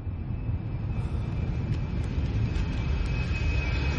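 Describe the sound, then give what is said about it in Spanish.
Airplane descending and landing on a runway at night, heard as a loud, continuous low rumble that stays steady throughout without distinct separate events. “Es de noche. El avión desciende y aterriza en la pista.”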